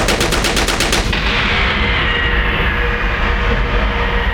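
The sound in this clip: Rapid automatic gunfire rattles out as a quick burst of evenly spaced, loud shots for about a second, then gives way to a steady, heavy roar of noise.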